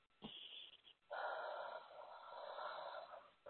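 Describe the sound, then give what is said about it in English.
Deep breath, faint: a brief sniff followed by a long, soft, airy breath that fades slowly. “I just want you to take a deep breath.”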